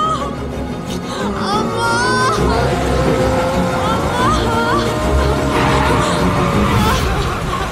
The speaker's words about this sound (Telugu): ఏమైంది? ఏమైంది? Engine problem అనుకుంటా.